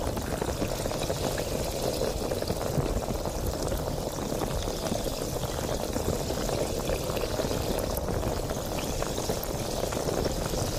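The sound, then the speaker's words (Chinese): Liquid bubbling close against the ear: a steady, dense fizzing and popping that stays even in level for about eleven seconds, with no voices. “它现在就是和你的耳朵进行接触了，它在冒泡。”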